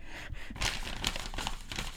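Crinkling of a sheet of paper being crumpled by hand, a steady dry rustle that runs through the whole moment with no pauses.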